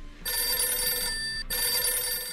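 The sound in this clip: A telephone rings with an incoming call: two bright, buzzing rings back to back, split by a very brief pause, steady and clear with no talk.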